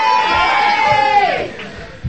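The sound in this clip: An audience gives a modest cheer at a live Christmas Day show, just before a duet. Many voices blend into a brief, mid-loud roar that eases slightly toward the end.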